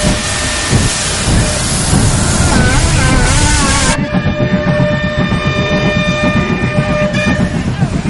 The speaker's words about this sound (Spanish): De día un tren se pone en marcha.